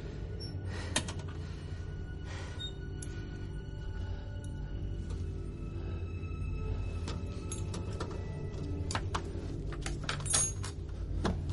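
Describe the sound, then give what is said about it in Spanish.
Faint metallic clicking and light scraping as the lock on a box door is picked with two tools, irregular small ticks and jingles over a steady low hum. “Manipula la cerradura de la puerta 748, ayudado de dos herramientas, hasta lograr abrirla.”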